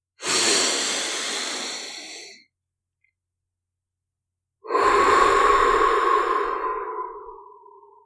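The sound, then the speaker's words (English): One big slow breath is drawn in through the nose as a soft, airy rush, followed by a silent pause. A longer, louder breath then flows out through the mouth with a faint whistling edge, gradually tapering off. “take a big slow breath in through the nose and out through the mouth”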